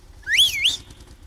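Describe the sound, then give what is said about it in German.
A person whistles to call a woman driving a Bulldog tractor. The whistle is a single high, short call that sweeps upward, dips and rises again, heard alone over faint low background noise. “Na, jetzt muss ich da einmal auch der Schneidinger Bulldog-Fahrerin da drin pfeifen.”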